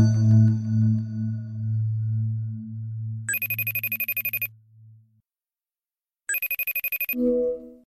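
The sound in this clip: A telephone rings for an incoming call: two bursts of bright, rapid electronic trilling with a pause between them, preceded by a low sustained tone and followed by a brief tonal sound.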